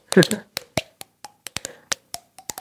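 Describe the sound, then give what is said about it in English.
Fingers tap on puffed cheeks to play a tune, making hollow, pitched pops in a quick run. Each tap changes pitch to form a melody, with a brief voice at the start. “I played my cheeks. It's this thing where you, like,”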